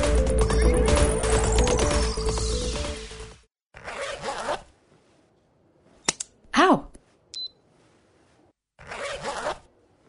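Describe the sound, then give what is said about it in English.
Mechanical clicking and scraping from finger-stick blood sugar testing for type 1 diabetes. A dense rattling burst lasts about three seconds, then a few separate sharp clicks and snaps follow with quiet gaps between them. “This is the sound of managing your type 1 diabetes using finger sticks.”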